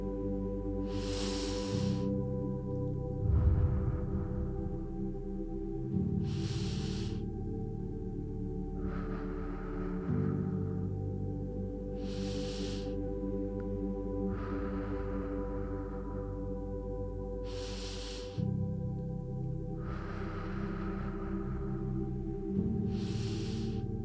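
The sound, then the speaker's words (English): Slow, deep breathing, with a full inhale followed by a long, complete exhale, repeated over several even cycles. The airy breaths stay fairly soft above a steady, sustained low tonal drone. “We're going to take a nice deep inhale and then a full exhale all the way down to the bottom of our wrist. Let's practice.”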